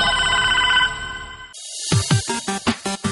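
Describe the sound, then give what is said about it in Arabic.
A mobile phone rings with a melodic ringtone during a tense scene in a TV drama. A steady, bright, repeating tone pattern is followed by a louder, busier passage with several sharp beats. “ده موبايلك بيرن؟ ايه ده انت اللي موبايلك بيرن؟”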